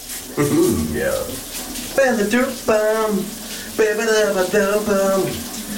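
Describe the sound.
A man hums a cheerful tune under a running shower, several melodic hummed phrases riding over the steady hiss of spraying water.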